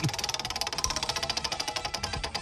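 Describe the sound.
A question wheel spins in a game, giving off many quick, evenly spaced ticking clicks in a steady run. The ratcheting is fairly faint, and no voices are heard.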